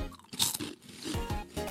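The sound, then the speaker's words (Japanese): Crunching on Kameda fried peanut rice crackers, a dense, continuous stream of crisp bites and chewing that fills the short moment. “さすが亀田のピー揚げはちょっと本気度が違いますな”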